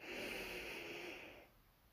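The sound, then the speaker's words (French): A slow, deep inhalation during a relaxation exercise, drawing air in to fill the belly and chest. The soft, airy breath lasts about a second and a half before fading, quiet and alone. “Vous allez prendre une profonde inspiration en gonflant le ventre et la poitrine”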